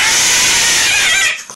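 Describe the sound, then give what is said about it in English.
A cat lets out one long, harsh, raspy yowl that holds loudly for just over a second, then cuts off, followed by a faint brief trailing sound. “Sounds like a very interesting feline.”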